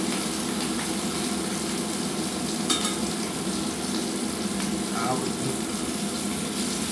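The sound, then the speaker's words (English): Sausages browning in a frying pan give off a continuous sizzling crackle, a busy, even hiss of spitting fat that stays at a steady level throughout. “The sausages. The sausages are getting brown, but they need a little bit more.”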